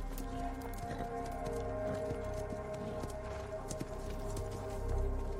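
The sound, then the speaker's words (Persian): Hooves of a white horse clip-clop as a rider mounts, a steady run of many moderately loud hoof knocks that continues throughout over a low, constant background. “سوار اسب سفیدی میشه”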